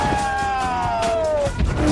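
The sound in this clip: A car smashes through a wall during a high-speed chase at about 290 km/h, with other cars being thrown. A loud, sustained tone slides downward in pitch, then ends in a broad, crunching smash.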